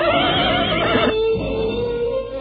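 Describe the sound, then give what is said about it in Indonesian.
A horse neighs in a long, loud, wavering whinny, its strained harmonic tones filling the whole stretch with no clear hoofbeats beneath. “mendadak terdengar derap kuda mendekat.”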